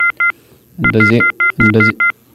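Telephone dialing tones: a series of short, steady touch-tone beeps in a quick, uneven rhythm, with some beeps overlapped by a louder, rumbling low sound.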